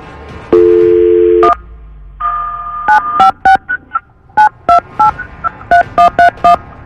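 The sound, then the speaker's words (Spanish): Telephone keypad dialing: a steady low dial tone, then a longer tone and a quick run of many short, loud dual-tone beeps in uneven bursts, with no talk. “voy a marcar”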